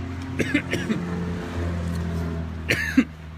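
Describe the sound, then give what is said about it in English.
Coughing from a tickle in the throat: a few short coughs come in two clusters, one early and one near the end, over a steady low engine-like hum. “be hacking. I don't have it. I just got something in my throat. Man, it is a strong tickle.”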